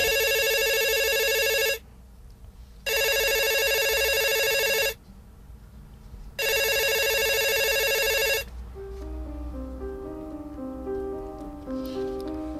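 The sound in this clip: A telephone rings in a radio drama scene: three long, bright electric rings separated by short pauses, then soft music notes begin.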